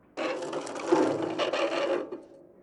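A screw is unscrewed in a video game with a loud, continuous grinding, ratcheting rasp that holds for nearly two seconds before cutting off abruptly.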